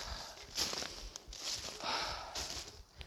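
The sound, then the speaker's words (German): Footsteps of a person out on a walk: a few soft, evenly spaced steps, quiet and alone without talk. “ich laufe gerade wirklich spazieren”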